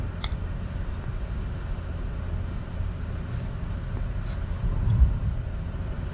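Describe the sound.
Car engine and road noise during a drive form a steady low rumble that swells slightly near the end.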